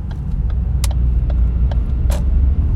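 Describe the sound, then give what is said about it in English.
A car turn signal clicks while the car is being driven: faint, regularly spaced ticks sit over a steady low road and engine rumble. “And I'm driving right now, by the way. There's my turn signal.”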